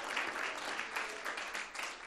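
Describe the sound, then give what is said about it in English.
Applause and hand clapping from a church audience: a dense, steady patter of many hands that carries through the whole clip at moderate loudness without a break. “Let's just give that hand clap to the Lord, will we?”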